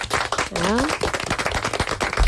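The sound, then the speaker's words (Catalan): Clapping in radio studios as guests are welcomed, a quick, irregular patter of sharp claps from a small group, with a voice heard briefly near the start. “Un aplaudiment per ells.”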